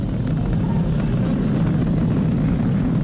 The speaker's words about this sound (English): Vehicle is supersonic. We've exceeded Mach 1 on the Falcon 9.